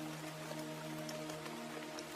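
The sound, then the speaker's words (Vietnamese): Rain falling outdoors, a steady, dense hiss of drops with faint scattered patters, holding at an even level throughout. “vì bây giờ trời mưa cũng đang dần nặng hạt”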